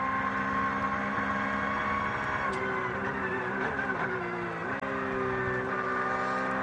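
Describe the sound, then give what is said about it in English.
Onboard engine roar of the number 5 Porsche race car mid-race while battling another car, a loud, steady harmonic drone that holds throughout, with a couple of brief dips in pitch. “A bit of on board with Georgia Piani here in the number 5 Porsche. Black Falcon entry there, just having a little battle with a Cup 2, one of the Mueller Motorsport cars.”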